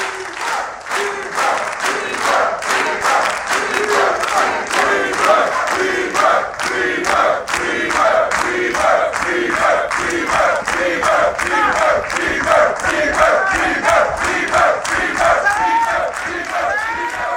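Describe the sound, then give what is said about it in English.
A group of men clap in a steady, fast rhythm while cheering and shouting together. The loud crowd noise runs unbroken through the whole stretch. “One man starts clapping. They all smile.”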